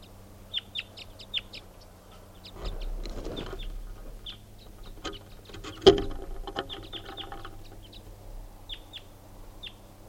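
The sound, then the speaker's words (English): A wild bird calls in the early morning: many brief, faint chirps recur irregularly, with a low rumble partway through and one sharp knock later on. “There's a wild bird coming in now.”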